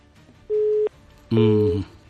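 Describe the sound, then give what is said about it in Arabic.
Telephone line tones sound after a phone call is cut off: first a steady, pure mid-pitched beep, then after a short gap a louder, buzzier tone rich in overtones, each lasting under half a second. “انقطعت المكالمة.”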